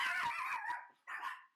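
A small dog barks and yips in two quick, close bursts of a few sharp, high-pitched calls, fairly loud and clear with no talk.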